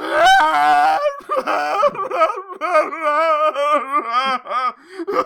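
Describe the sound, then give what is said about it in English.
A woman wails loudly in heavy, drawn-out cries that waver up and down in pitch. The cries come in several long bursts broken by short catches of breath and continue without pause across the whole stretch. “She completely stops sobbing. And then just devolves into just, like, even heavier, bigger wailing.”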